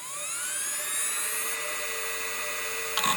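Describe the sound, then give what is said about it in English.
A mechanical hard drive in a 2005-era PowerBook laptop spins up, its high tonal whine rising in pitch over the first second and a half before holding steady, with a brief click near the end. “like my 2005 era PowerBook would sound kind of like this.”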